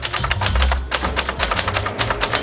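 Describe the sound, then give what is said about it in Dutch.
Typing on orange typewriters set out in a library in Zwolle: a dense, fast run of sharp mechanical key clacks that continues steadily from start to end over a low background rumble. “zette in een bibliotheek in Zwolle een hele rits oranje typemachines neer, waar mensen hun frustratie van zich af kunnen typen.”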